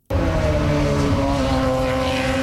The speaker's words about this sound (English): Indy cars are hitting the track for the first time in Markham, Ontario today.